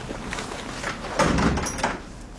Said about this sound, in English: close the door.